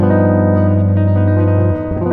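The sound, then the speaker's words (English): A G7 flat 13 chord, a dominant seventh voicing over G, rings out on guitar. The single chord sustains loud and rich for about two seconds, with a slight shift in its lower notes near the end. “the chord that you can play is the G 7 flat 13, or so a dominant 7 flat 13, in this case, a G 7 flat 13. So it sounds like this.”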